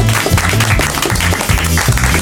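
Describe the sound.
Applause from an audience welcoming a guest onto a show: a dense, steady patter of many hands clapping that lasts a couple of seconds without a break.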